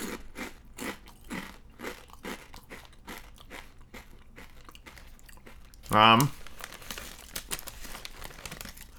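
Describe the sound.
Crunching of thick-cut cheese and onion potato chips: crinkly, crackling bites and chewing run throughout, with one loud, sharp crunch standing out near the end.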